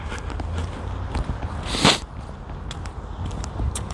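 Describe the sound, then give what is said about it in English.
Footsteps walking on an icy street, many crunchy, uneven steps with a brief louder scrape partway through. “I'm out. I'm walking. I'm moving.”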